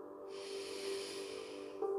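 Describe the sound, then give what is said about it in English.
A single slow, deep breath drawn in through the nose: a soft, steady breathy hiss lasting about a second and a half, faint and alone, with a low steady tone underneath. “And now take a nice deep breath in through your nose.”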